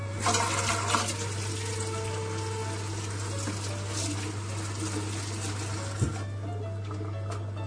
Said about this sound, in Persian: دستم رو میشورم